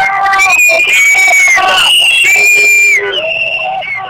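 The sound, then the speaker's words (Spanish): A crowd of people shouting in a loud, continuous roar, with shrill whistle-like tones rising and falling above the din throughout. “ahora empiezan a gritar”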